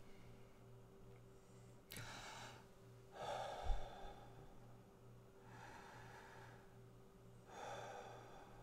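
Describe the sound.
A person breathes slowly in and out, with four soft, airy breaths separated by quiet pauses over a faint steady hum. No one talks.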